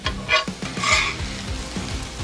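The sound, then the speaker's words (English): A spatula scrapes and gathers cheesesteak meat and melted cheese across a griddle in several rhythmic strokes. The scraping is fairly faint, with a soft sizzle running beneath it. “And I have the wrong spatula. I need a long spatula, but we're gonna get most of it in there.”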